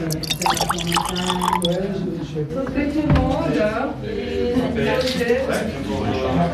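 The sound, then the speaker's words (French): Grand Chasselas wine poured into a small glass, a gentle liquid trickle with light drips beneath continuous conversation. “Je vous propose de vous remplir un petit verre de Grand Chasselas.”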